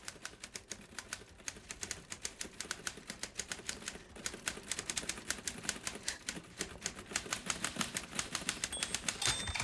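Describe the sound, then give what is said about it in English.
Rapid clacking keystrokes from a typewriter in use in an office room, many sharp strikes in a steady, dense rhythm, quiet throughout, with no voices. “Golda hesitates at the door of the room where Shir Shapiro is typing”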